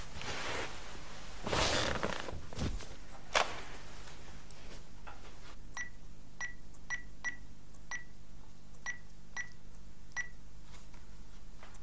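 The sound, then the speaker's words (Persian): Phone keypad beeps as someone dials a call: many short, high-pitched beeps in an uneven sequence, following a brief burst of rustling at the start. “یه زنگ بهش بزن ببین چی کارت داره”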